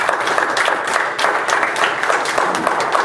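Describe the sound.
A church audience applauding: dense, continuous clapping from many hands, steady and fairly loud throughout with no pauses.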